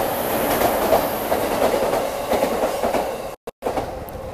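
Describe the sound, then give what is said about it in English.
Loud trains rumble by in Tokyo with a steady, roaring wash of wheel and rail noise and faint rhythmic clacking. The sound stays heavy and continuous throughout. “And I'm sorry, there are very loud trains in the background here, guys. And all right, let's just enjoy the sounds of Tokyo for a minute.”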